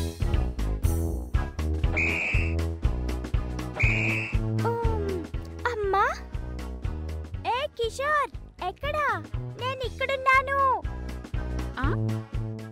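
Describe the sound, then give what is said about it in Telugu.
Someone whistles repeatedly to call a friend to come outside, giving short sliding notes that rise and fall over busy, steady background music. “ఇంతకు ముందు ఇలా whistle కొడితే అలా వచ్చేసేవాడు ఇవాళ్ళేమైంది వీడికి”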